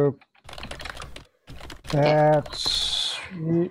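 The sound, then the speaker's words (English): Rapid clicking of fingers typing on a computer keyboard during a tabletop roleplaying game session, light quick taps mixed in with voices talking. “I can't type, apparently.”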